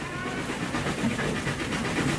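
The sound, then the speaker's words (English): A train pulling into a platform at Waterloo Station, a steady loud rumble with rhythmic wheel clatter and a hiss running throughout. “On the Friday morning, we were waiting for the train on the platform at Waterloo Station.”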